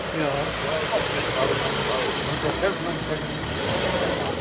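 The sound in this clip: Cars idling while a steward directs them in at the Goldener Löwe inn in Kloster Veßra, a steady mid-pitched engine rumble running throughout with people talking over it.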